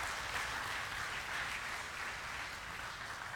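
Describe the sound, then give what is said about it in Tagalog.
A church audience applauds the Lord, a dense, steady wash of many hands clapping that holds at an even level for the whole stretch, with no single claps standing out and no clear voices over it. “Palakpakan natin ng Panginoon, mga kapatid.”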